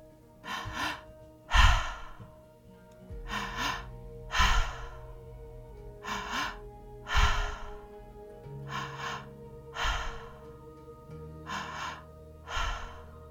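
Deep guided breathing in and out, about ten slow, airy breaths spaced evenly in a calm, steady rhythm, quiet and unaccompanied except for a faint steady drone underneath.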